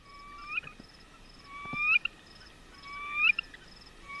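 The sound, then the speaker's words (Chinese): A male bird sings its breeding-season song of three plaintive, flute-like whistled phrases, evenly spaced. Each phrase slides upward and ends in a sharp, bright note. The song is clear and moderately loud over a faint background hiss. “这是雄鸟的歌声”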